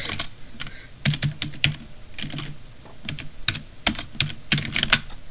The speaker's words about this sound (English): I'll type it. I'm a professional typer.